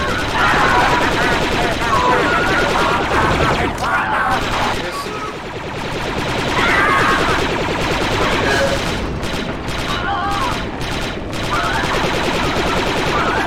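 Gunfire from a gunship's gun in a military video game, loud rapid bursts that run almost continuously, broken by a couple of short lulls before the firing resumes.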